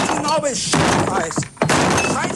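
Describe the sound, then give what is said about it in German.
A table is smashed with a few heavy thuds and cracking breaks, mixed in with voices talking throughout. “Und deswegen mache ich jetzt hier diesen Tisch mal kaputt, ja?”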